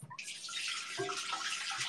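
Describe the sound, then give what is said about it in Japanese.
Water running steadily from a tap into a sink while dishes are washed, a continuous hissing splash that holds at an even level throughout. “ちょっと洗い物します。”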